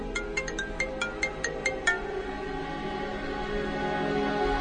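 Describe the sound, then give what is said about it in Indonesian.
Mobile phone ringtone for an incoming call: a rapid series of short, bright electronic beeps repeats for about two seconds, then stops, leaving only a steady low background hum. “Kira-kira 10 menit kemudian, ada telepon masuk ke handphoneku.”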